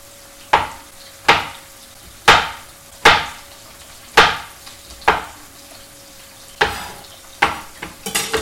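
Sizzling bursts as chicken pieces go into a hot frying pan, each a sharp crackling hiss that quickly fades, repeated many times with several quicker bursts near the end.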